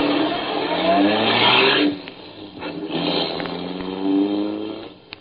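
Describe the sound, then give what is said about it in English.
A car engine revs and pulls away as the car drives off, its pitch climbing as it accelerates, dipping briefly, then rising again. The engine stays fairly loud throughout, with no talk. “They walked off arm in arm, and I drove away.”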